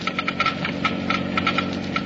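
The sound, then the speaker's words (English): A Geiger counter clicks as it measures the low wear rate of critical auto engine parts lubricated with new RPM motor oil. Many sharp, fairly slow clicks tick over a steady low hum. “let's listen to the Geiger counter slowly click off the low wear rate of new RPM.”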